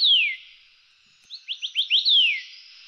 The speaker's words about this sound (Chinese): 下一个是白耳画眉，这就叫婉转。